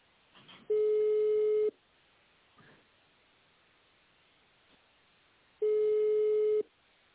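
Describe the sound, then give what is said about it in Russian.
Ringback tone plays while a phone call to a company waits for an answer: two long, steady, mid-pitched beeps about a second each, separated by several seconds of faint line hiss. “Мы позвонили в компанию Химпэк. Ждите ответа.”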